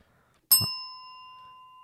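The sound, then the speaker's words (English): A single bright bell strike rings out after a moment of silence, its clear metallic tone holding on and slowly fading. “He's rang that bell.”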